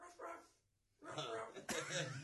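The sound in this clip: Dog barking in a few short, sharp bursts, with people's voices mixed in around them.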